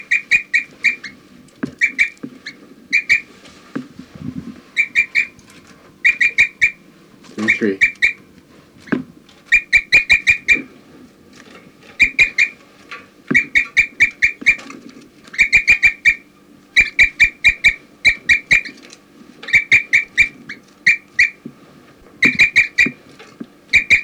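A bird chirps repeatedly and gives flight calls: many short, bright, high-pitched notes in clustered bursts that recur throughout, over a steady low rumble.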